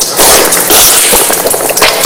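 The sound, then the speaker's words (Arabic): Water rushing and splashing as someone rinses the mouth and nose from one palm during ablution. A loud, continuous hiss with a few brief splashes, heard without talk. “كما هو الملاحظ تمضمض واستنشقت من كف واحدة، وأعيدها مرة ثانية.”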